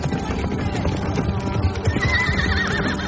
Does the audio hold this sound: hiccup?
no